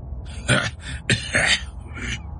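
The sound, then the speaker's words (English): A man coughing and clearing his throat with a few hoarse, rough bursts separated by short pauses. “He coughed.”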